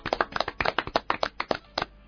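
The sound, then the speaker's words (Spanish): Applause of hand clapping, a quick run of sharp, irregular claps that keep going throughout. “Aplaudimos entonces a estos primeros 6.”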